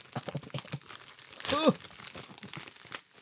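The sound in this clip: A package's wrapping crinkles and tears in a short, loud burst midway through, amid ongoing talk.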